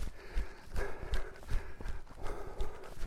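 Quick, evenly spaced footfalls of someone jogging along a path thud in a steady rhythm. Each step is a short, low impact over a constant rustling background.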